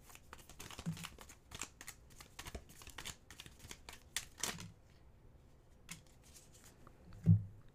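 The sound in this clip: Crystal and gemstone oracle cards are shuffled by hand, making many quick, faint, papery clicks and flutters in an uneven rhythm, ending with one heavier soft thump.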